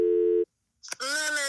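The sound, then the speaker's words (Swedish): A telephone tone sounds as a call is placed. A single steady burst is followed by a short silence, then a voice comes in. “Ja, vi ringer upp Josefin nu.”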